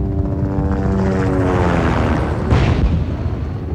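Military helicopters rise from behind hills to attack a camp, a heavy droning rotor and engine roar with layered humming tones, broken late by a sudden rushing burst.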